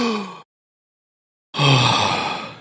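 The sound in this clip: A deep breath taken to calm down: a drawn-in inhale, about a second of held silence, then a long, loud exhale that fades out like a sigh.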